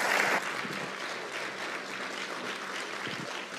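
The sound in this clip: Audience applause for a guest, a steady, even wash of many hands clapping that stays fairly quiet throughout.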